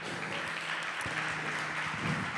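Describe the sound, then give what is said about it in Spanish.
An audience applauds during a church service, with dense, continuous clapping at an even level throughout. “Dale un aplauso a Jesús.”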